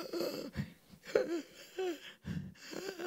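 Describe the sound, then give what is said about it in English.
A voice imitates the strained, wheezing breaths of someone who cannot breathe because of a hemothorax after a car crash, with the chest filling with blood and fluid and two ribs broken. The sound is a series of ragged, rasping, voiced gasps separated by short pauses. “My lungs and my chest started filling up with blood and fluid. So I couldn't breathe. I'm doing this.”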